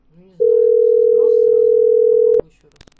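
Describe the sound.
A steady telephone tone sounds after a call is rejected: one unbroken mid-pitched beep of about two seconds, with faint talk before it and a short click at the end.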